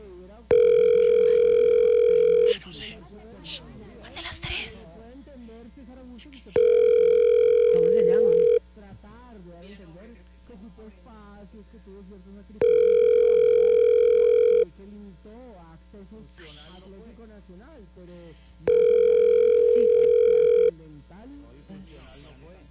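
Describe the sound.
A telephone rings on the line while a caller waits for an answer: four long, evenly spaced ringing tones, loud and steady, with people talking quietly in the gaps between them.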